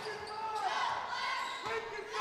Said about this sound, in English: Burkett brings it across the head of the key with the right-hand bounce.